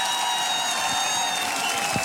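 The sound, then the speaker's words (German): An audience at a folk music show applauds steadily, a dense even wash of clapping with faint cheering, sustained and moderately loud throughout. “Das ist nochmal euer Applaus. Dankeschön.”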